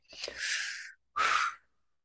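A deep breath, heard as two airy, breathy rushes with no talk: a longer one lasting nearly a second, then after a short pause a shorter, stronger one.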